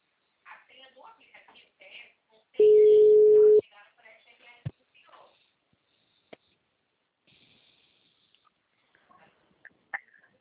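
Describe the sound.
Telephone tone after a dropped call: a single steady beep lasting about a second, set between stretches of brief talk and a few faint clicks.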